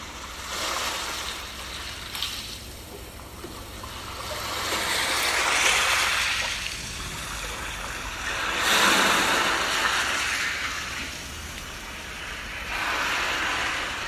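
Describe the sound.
Sea waves wash in as broad, rolling swells of rushing noise that rise and fall several times, with a constant low roar beneath and no voices.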